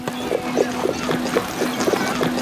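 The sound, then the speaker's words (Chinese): Horse hooves clip-clopping as an official's carriage moves along a street, a steady run of light knocks in even rhythm over a constant hiss. “吁！这些御史大夫曹大人的马车，谁敢阻拦？”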